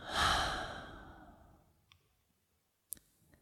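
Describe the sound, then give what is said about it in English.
A deep, breathy exhale through the open mouth during a yoga breathing practice, loud at first and fading slowly over about a second and a half, followed by a few faint, sharp clicks in the quiet. “full breath into the heart and then down into the belly. And gently open the mouth, exhale it out.”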